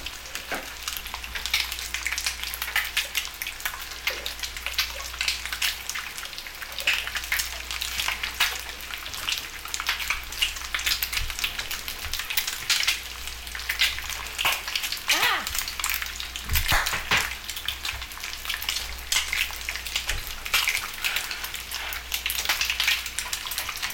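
An egg frying in butter in a pan gives a steady, fairly quiet sizzle: a continuous fine hiss scattered with occasional sharper crackles and pops.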